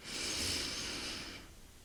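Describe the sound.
A person breathes slowly during a guided breathing exercise: one long, airy rush of breath holds steady for over a second, then fades away, with no talking.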